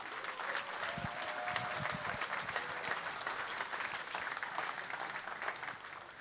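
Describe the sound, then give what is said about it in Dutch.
Warm applause from a jazz audience welcomes a band to the stage. The clapping stays dense and steady from start to finish, with no clear peaks or breaks, and a faint low hum sits underneath. “Geef ze een warm applaus.”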